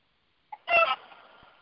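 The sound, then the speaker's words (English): A loose chicken running around clucks: a brief short note, then a louder, harsher drawn-out squawk that trails off into a faint tail. “Oh, no, there's a chicken still. The chicken's still running around.”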